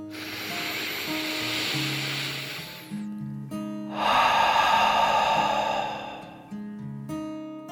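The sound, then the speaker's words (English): A deep breath in and out, taken in bed during a children's guided meditation: a long airy inhale, a short pause, then a louder, breathy exhale over soft sustained music. “Snuggling further into her bed, Ruby June took another deep dragon breath in and out.”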